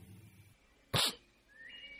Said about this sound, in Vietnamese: Chú Năm khịt khịt mũi.